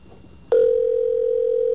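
A steady, single-pitched ringback tone from an OmniPoint GSM cell phone call begins abruptly after a brief quiet moment and holds loud and unbroken to the end.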